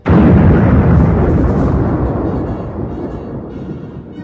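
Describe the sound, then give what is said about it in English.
A massive explosion of a giant space station hit by torpedoes in a science-fiction battle: a sudden, loud, deep blast that rolls into a long, rumbling roar slowly fading over several seconds. “The proton torpedoes hit their target, and the Death Star explodes.”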